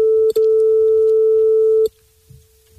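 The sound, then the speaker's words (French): A telephone call tone plays while a call to a listener is being placed: a steady, pure electronic beep broken once by a brief gap, then cut off abruptly into near silence. “Logan qui appelle Jason, on appelle en direct. À l'instant même, pile poil.”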